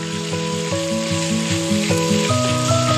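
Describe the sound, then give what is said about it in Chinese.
Finely minced beef stir-fries in hot rapeseed oil in a wok for mapo tofu, a loud continuous sizzle and hiss throughout, beneath a stepping melodic music line, with no voices. “热锅下菜油，烧至六成熟，再放入剁细的牛肉末，煸炒至酥嫩。”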